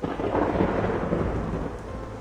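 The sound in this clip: Thunder and heavy rain pour down during a sudden afternoon storm over Beijing, a loud, steady roar of downpour with a deep rumble of thunder running underneath throughout.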